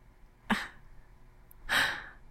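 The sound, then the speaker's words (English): A person draws a sharp breath: a brief, quick inhale followed about a second later by a longer, fuller breath, both soft and with no talking. “Did you just suck in your breath when I said that?”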